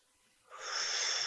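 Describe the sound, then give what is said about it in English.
A deep breath drawn in: a short quiet stretch, then a soft, airy rush that swells quickly and holds as a steady, breathy hiss, fairly faint and alone. “Take a breath.”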